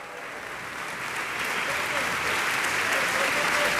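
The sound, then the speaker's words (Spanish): Concert hall audience applauding the Orquesta Sinfónica de Xalapa after a Shostakovich Symphony No. 8 performance, a dense continuous clapping that swells louder over the first seconds and then holds steady. “Usted puede escuchar al público reunido el día de hoy en la sala de conciertos del Centro Cultural Tlacnar reconocer a la Orquesta Sinfónica de Xalapa.”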